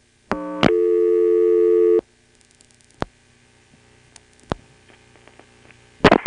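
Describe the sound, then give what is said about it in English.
A telephone line tone followed by dialing 7-2: a steady tone of about a second and a half, then quiet with a few isolated clicks, and a short cluster of clicks at the very end. “And now, listen to this. I'm going to dial 7-2.”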